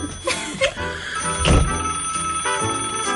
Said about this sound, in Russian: снимите трубку